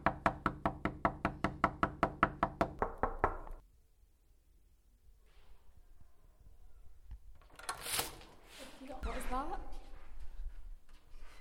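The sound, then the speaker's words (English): Knocking on a door: a fast, even run of many sharp, loud knocks lasts about three seconds, then stops and gives way to quieter, scattered background sounds. “Knocking on doors. Sound.”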